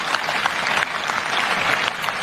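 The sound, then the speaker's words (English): An audience at a political speech applauds in sustained, dense, steady clapping that fills the whole stretch at even loudness, with no talk over it. “It's ridiculous that they're all clapping for this long.”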